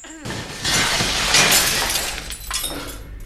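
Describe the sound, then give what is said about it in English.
A glass two-way mirror shatters as debris is hurled at it: a loud crash that bursts in and holds as a dense spray of breaking, crunching glass, with a second surge of shattering before it fades. “He drops the shard and hurls some debris at the mirror on the far wall. And repeats the effort.”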